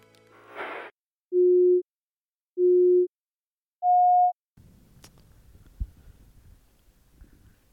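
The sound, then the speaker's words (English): A film sync cue tone sounds three distinct evenly spaced beeps, the first two at the same lower pitch and the final one higher. Faint low rumbling noise follows. “typically with three distinct beats, and we'll all start the film from the 0 second mark on the final beat of that sync cue.”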